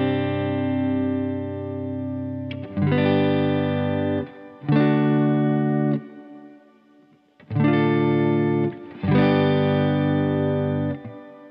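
Electric guitar chords play through a Strymon Blue Sky V.2 reverb pedal with its shimmer effect on. Five loud, sustained chords ring out with long tails, separated by quieter swells of hanging tone.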